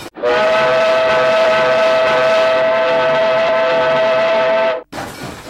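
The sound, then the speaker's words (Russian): A steam locomotive at a station platform sounds one long, loud whistle blast, a steady harmonic tone held for about four and a half seconds before cutting off abruptly, followed by a short, quieter burst of noise. “А мальчик что-то крикнул, но снова взревел паровоз и заглушил его голос.”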